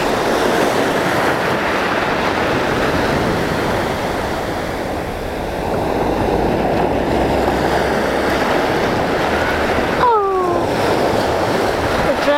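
Waves and surf at a beach, a loud, steady rushing roar of breaking water that fills the whole clip with only slight swells in level.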